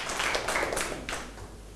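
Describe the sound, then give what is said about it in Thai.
Students in a classroom clap for a classmate, a brief, soft patter of many hands that thins out and fades slightly toward the end. “ปรบมือให้เพื่อนลูก”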